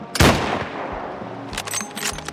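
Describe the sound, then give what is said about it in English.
A loud, sharp gunshot rings out, followed a moment later by a few fainter cracks and rattles as its echo and debris die away. “Another shot rang, stopping the action dead.”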